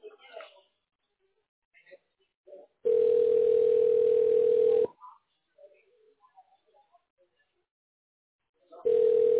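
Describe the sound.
Telephone tone heard while a call is being placed: two long, steady low-pitched beeps separated by a silent gap, with faint brief voices between them.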